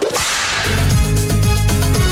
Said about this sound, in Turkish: Kırbaç alabilir miyim?